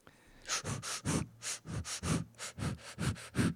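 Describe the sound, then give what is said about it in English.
Forceful rhythmic breathing from a dragon's breath breathing exercise: many sharp, breathy puffs and sniffs in a steady, rapid pulse, loud and alone with no talk. “What animal is that? I'm doing dragon's breath. It's a breathing exercise.”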